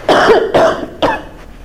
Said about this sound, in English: Excuse me, I'm about to cough.